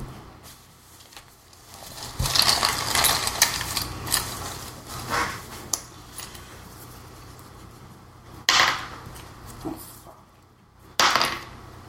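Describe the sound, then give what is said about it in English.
Dice being rolled in a tabletop game clatter in a few sharp, wooden rattling bursts, a busy cluster early on and two shorter tumbles later, over quiet background noise. “So was that you rolling your hero die and your other die?”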